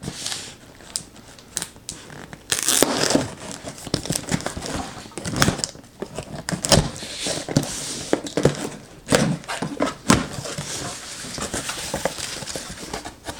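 Crinkling and crackling of packaging as a Liquid Ice package is opened, with many irregular rustles, snaps and scrapes of varying loudness and no talking.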